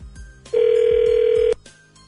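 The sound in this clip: A single loud telephone ring tone from a call placed to a casino resort hotel room: one steady, even-pitched burst lasting about a second, rising sharply out of quieter background sound and cutting off abruptly.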